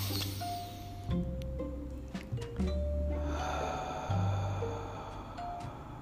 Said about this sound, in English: So we're going to take our first deep breath in through the nose.